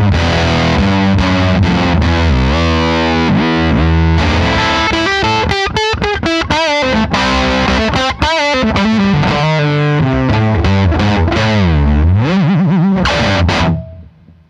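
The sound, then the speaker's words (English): An electric guitar plays through a distortion effects pedal, loud and heavily saturated. It strums chords and riffs with wobbling, bending notes, then cuts off abruptly near the end. “Yeah, it's a really interesting pedal. Totally not what I was expecting it to sound like.”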